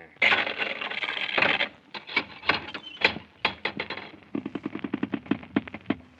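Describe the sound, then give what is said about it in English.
A golden key unlocking a chained gate: a rasping metallic clatter, then a quick run of sharp clicks and clanks in uneven rhythm, fairly quiet overall. “Throw off the chains and open the gate, and I'll have your head if you're 1 minute late. Yes, sir, at once, Your Majesty. I'll unlock the gate with this golden key.”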